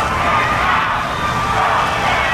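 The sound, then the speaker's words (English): A crowd outside the Supreme Court booing, a continuous, loud roar of many voices that stays level throughout. “A chorus of boos from the crowd below, some chanting respect her wish and vote him out.”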